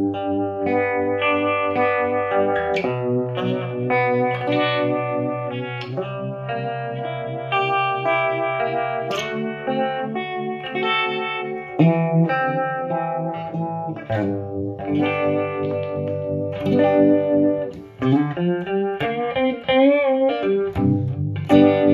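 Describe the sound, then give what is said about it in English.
An electric guitar runs through a univibe-style vibe effect, playing loud, continuous chords and note runs with a wavering, throbbing modulation. “Vibe is, this is based on a univibe, and let's see what it sounds like”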